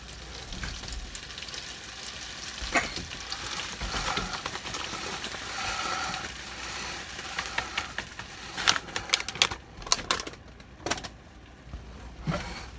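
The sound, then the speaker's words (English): Flour goes into melted butter in a pan and is stirred: a soft sizzling hiss mixed with scraping and irregular clicking of the utensil, which grows busier toward the end. “As soon as our butter is all melted, then we're going to put our flour in. Gonna put our flour in.”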